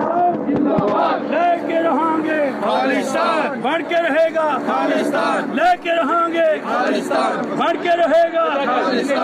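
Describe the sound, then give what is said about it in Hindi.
Protesters chanting slogans in unison outside a stadium in London, in a demonstration against India's prime minister with cries over Kashmir and Khalistan, a loud, unbroken mass of rhythmic shouting voices. “अधिकतर प्रदर्शनकारी कश्मीर और खालिस्तान के पक्ष में नारे लगा रहे थे”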